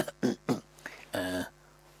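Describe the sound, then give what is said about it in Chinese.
A man clears his throat in a room: two short, rough bursts followed by a longer voiced, hummed rasp, then quiet. “阿斯哈清了清嗓子”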